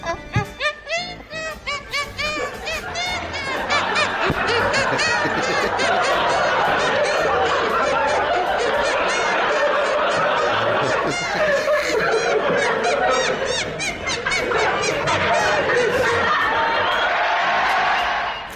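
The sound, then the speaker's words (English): A well-known TV sports theme tune played by squeezing air between cupped hands on a 1980s television show: a long run of squelchy, honking, pitched notes in a steady melodic rhythm that carries on almost without pause. “can play the Match of the Day theme tune on his own hands.”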